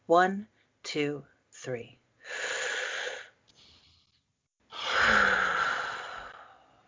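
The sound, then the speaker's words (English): Deep breathing in and out: after a few brief voiced sounds, one long, airy inhale is followed by a pause and then a longer, louder, rushing exhale that slowly fades. “Let us breathe in the good. Let us breathe out the bad.”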